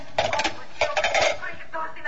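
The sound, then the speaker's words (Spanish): Plates and dishes clink and clatter as they are gathered up in a home kitchen, several bright ringing knocks coming in small clusters over a quiet background. “Deja los platos, mamá. Ya recojo y friego yo.”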